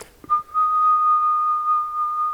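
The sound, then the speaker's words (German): A steady whistled tone held like a pure sine wave: one long, even note at constant pitch and level, with a faint higher overtone, after a short breathy onset. “Ich habe da eine schöne, gleichmäßige Sinuskurve aufgebaut. Wenn ich pfeife,”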